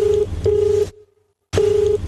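Telephone line tones sound as a number is dialed: a low, steady electronic tone plays in three short bursts, with a silent gap before the last one.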